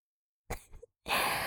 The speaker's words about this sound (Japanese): どんどん息が荒くなっているぞ